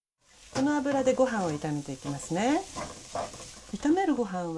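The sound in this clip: Cooking oil sizzles at the edge of a pot, a continuous soft hiss beneath a person talking throughout.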